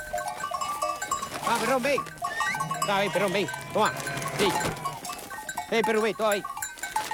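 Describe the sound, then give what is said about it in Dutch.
A flock of sheep bleats while being herded together into a sturdy iron pen for the night, many overlapping wavering bleats following one another in quick succession, some louder bursts standing out over a busy background. “kijkend naar de kudde schapen die bijeengedreven werd en nu binnen een stevig ijzerwerk de nacht zal doorbrengen.”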